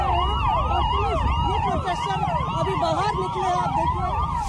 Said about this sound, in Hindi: कर्तव्य पथ का चौराहा है जहां आपको सिर्फ पुलिस के साइरन सुनाई देंगे